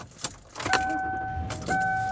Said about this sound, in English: I am driving home.